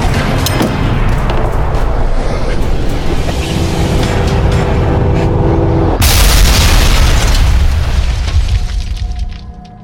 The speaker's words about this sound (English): Now get behind the table! Throw the grenades!